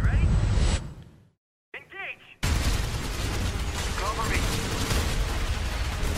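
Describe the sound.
Gunfire in a VR first-person shooter video game: loud, dense bursts of shots that cut out briefly into near silence, then resume in a continuous heavy barrage.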